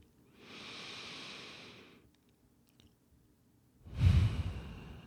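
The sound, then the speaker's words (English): Deep breathing during a meditation: a long, airy breath in, a quiet pause, then a louder, breathy exhale. “You can just take a few deep breaths with me.”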